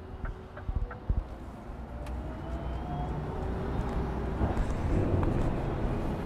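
A hybrid diesel-electric truck starting and pulling away: a few sharp clicks and knocks at first, then a low engine rumble that builds steadily and grows fuller as it drives off, faint overall.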